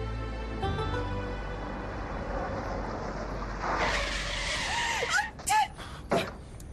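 A car braking sharply and nearly running over a pedestrian in a radio drama: a low engine hum swells into a broad rush, then a few short, high squealing screeches cut in near the end.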